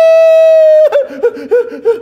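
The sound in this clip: A man's voice imitates a small child's crying yell after a fall from a slide: a long, sustained high wail, then broken, sobbing vocal bursts.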